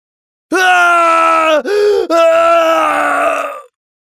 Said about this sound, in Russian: Душераздирающий крик разлетелся по пустынной земле кошмара.